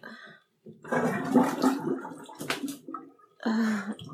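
Bath water draining from a tub, with bursts of rushing, gurgling water separated by short pauses and one sharp splashy burst near the middle.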